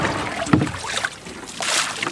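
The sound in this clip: Water is bailed out of a rowing boat by two people, with a few scooping splashes and sloshes over soft wind noise.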